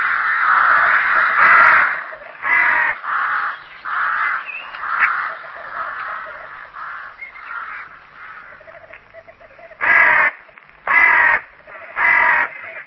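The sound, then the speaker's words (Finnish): Crows cawing in an Indian village, many loud, harsh, rasping calls in irregular bursts, with overlapping caws early on and three separate strong calls near the end. “mitä varikset voivat saada aikaan. Vuosittain häviää Intiassa varisten suihin viljamäärä, joka on 7 kertaa koko Suomen vuotuinen viljan tuotanto.”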